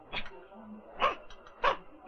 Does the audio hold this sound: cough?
no

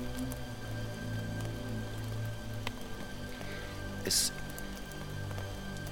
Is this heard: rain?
yes

